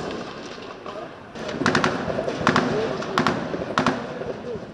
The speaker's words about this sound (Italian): E si sentono colpi di fucile come questi che avete appena ascoltato.